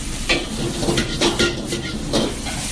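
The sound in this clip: Pad Thai noodles and egg stir-fry in a wok, with a continuous sizzle broken by several bright scraping strokes of a utensil against the pan, loud and alone, with no talk.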